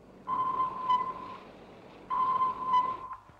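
Sonar pings sound as a naval vessel makes contact with a submerged submarine: two long, steady mid-pitched tones with a slight ringing tail, each lasting over a second, heard over a constant low hiss.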